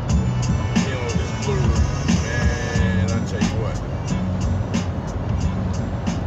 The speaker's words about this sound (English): I'm on the road, as you can hear.